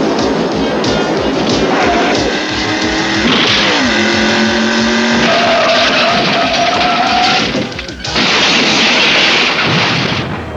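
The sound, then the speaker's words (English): A cartoon car crashes with parts flying off: a loud, continuous roar of revving engine and skidding, with tonal whines and crashing bangs, a short break, then another loud surge of noise. “It's really the first time that we got some major damage. I think we've had Switchblade crash a couple times, but nothing like this where you got like parts flying off and doors flying off.”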